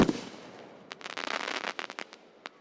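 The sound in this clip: Fireworks shells burst in the sky in a rapid series of many sharp, crackling pops. They are fairly faint, grow dense and overlapping, then thin out to a few scattered bursts.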